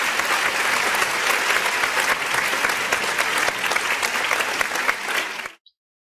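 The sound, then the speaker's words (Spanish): Audience applause, loud and dense clapping held at a steady level for about five seconds before cutting off abruptly into silence. “Así es, un fuerte aplauso para ellos.”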